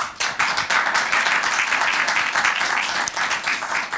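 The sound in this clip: Audience applause welcoming a guest speaker, a film specialist, at an evening event: dense, steady clapping that stays loud for the whole stretch, with no voices standing out.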